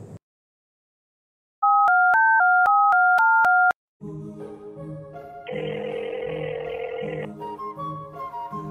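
Telephone keypad tones sound as a number is dialed to make a call: a quick run of several clipped, loud two-note beeps at shifting pitches, then music takes over.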